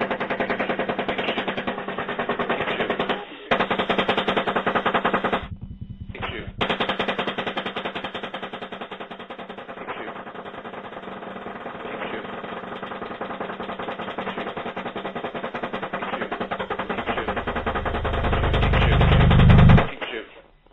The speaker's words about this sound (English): So you are free to engage, over. Alright, we'll be engaging. Light them all up. Come on, fire.